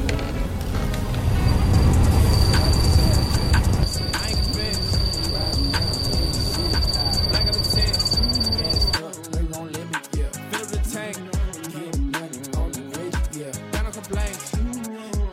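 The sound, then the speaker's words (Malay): A worn air-conditioning blower behind the dashboard of an old Chevrolet Optra gives a thin, steady, high-pitched squeal over broad fan noise for several seconds. A rhythmic series of quieter pulses follows. “Okay, ni keadaan blower lama dia lah. Okay, korang tengok. Ni yang menghasilkan bunyi tu. Bunyi macam tikus kan?”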